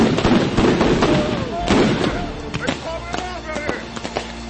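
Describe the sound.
Rubber bullets being fired on a street, heard as several sharp, irregular pops and bangs over shouting voices.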